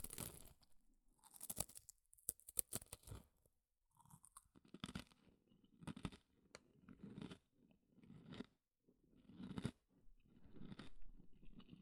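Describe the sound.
Thick-cut food is crunched in many quiet, irregular bites, each a low, heavy, crisp crunch separated by short pauses.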